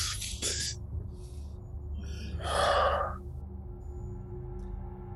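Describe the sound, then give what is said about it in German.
Deep breathing: a sharp, airy breath near the start, then a louder, longer breathy rush about two seconds later, over a low steady hum. “ein wirklich sehr tiefes Ein- und Ausatmen, so die Hand entspannt sich wieder.”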